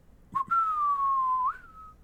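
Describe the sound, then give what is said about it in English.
A low human whistle imitating a bird call: a quick chirp, then one long steady tone that sinks slightly before flicking upward at the end. It is clear and alone over a faint background. “He gave a call like the low whistle of a bird,”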